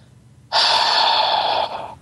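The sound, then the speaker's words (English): A voice imitates a long breath out: one breathy exhale that starts abruptly, holds strong for about a second, then softens and tapers away. “and he's like, he exhaled”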